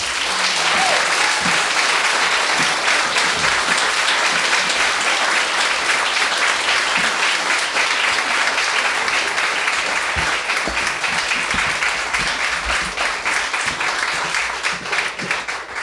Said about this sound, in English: Please put your hands together for Susan Rogers.